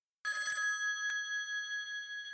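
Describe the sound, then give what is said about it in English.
A telephone rings with an incoming call: a bright, high, sustained bell tone that begins abruptly and holds steady throughout. “I think we're just getting a phone call here.”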